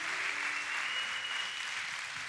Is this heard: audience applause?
yes